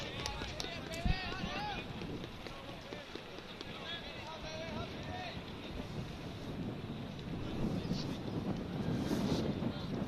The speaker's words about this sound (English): And you can hear that wind coming in today.